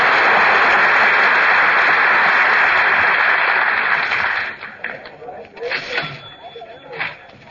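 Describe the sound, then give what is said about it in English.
Crowd noise fills a busy store at Christmastime: a loud, steady roar of many murmuring voices that drops away after about four and a half seconds, leaving a few nearer voices talking. “Boy, what a crowd. Stick close to me, Phil. You too, Mary. I don't want you to get lost.”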